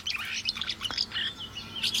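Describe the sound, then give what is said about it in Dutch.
Birdsong in June from blackbirds, robins and passing swifts: many quick chirps, tweets and short warbled phrases overlap continuously at a moderate level, with no talk. “Juni is qua vogelzang een stillere maand dan mei, maar nog steeds zijn verschillende vogels goed te horen. Merels, roodborstjes, voorbijscherende gierzwaluwen.”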